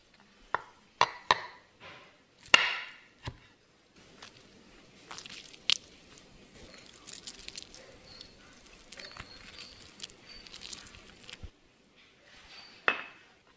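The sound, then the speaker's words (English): Knife slicing a lemon in half and squeezing out its juice while making hummus: a few sharp knocks at first, then a long stretch of wet squishing and grinding, ending in one more clear knock. “So, first off, let's juice our lemons. So, you need one lemon for this recipe, and you're gonna slice it in half and juice it and remove the seeds.”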